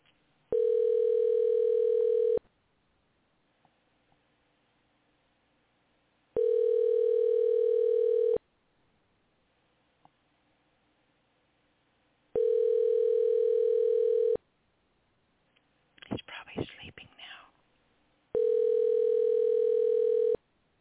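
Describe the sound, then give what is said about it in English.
Telephone ringback tone while a call is placed: four long, steady, buzzing rings of about two seconds each, separated by longer silent gaps, with a short burst of rustling noise before the last ring and no voices. “All right, let's try calling Levi again.”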